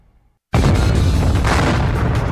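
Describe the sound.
A sudden boom explosion sound effect in a store sale advert bursts in after a moment of near silence, then holds as a loud, rumbling, noisy roar to the end.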